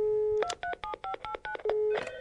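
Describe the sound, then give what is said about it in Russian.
Mobile phone keypad dialing tones: a rapid run of short, bright electronic beeps at varying pitches, framed by a steady lower tone before and after, with no talk. “достал из-под полы свой сотовый телефон и позвонил отцу Адамса”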